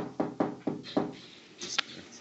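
Knocking on a wooden door latch, four quick, evenly spaced raps, followed by a few fainter, softer sounds.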